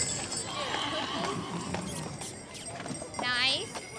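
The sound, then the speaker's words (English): Horse hooves clip-clop during a holiday carriage ride around a city block, a steady run of hoof beats under a busy wash of street noise and voices. “I'm Kayla, and we were taking a carriage ride to spend some good family time together to celebrate the holidays.”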